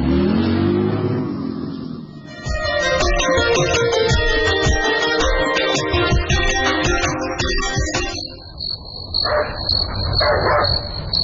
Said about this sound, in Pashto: نه پوهېږم چې دا سپی ولې غاپي. خامخا خبره شته.